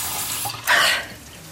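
Water poured or running briefly to give someone a drink, a short splashing hiss that swells and fades within a moment over faint background noise.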